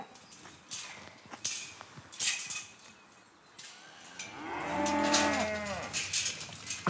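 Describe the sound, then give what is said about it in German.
A nine-year-old lead cow on a farm gives one long, low moo in the second half, preceded by scattered knocks and shuffling sounds. “Leitkuh Laura lebt in etwa genauso lange auf dem Hof wie er.”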